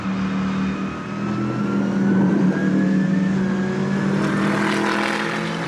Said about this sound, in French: Déjà, la première ligne droite à fond, j'ai pris plus de 230 km/h.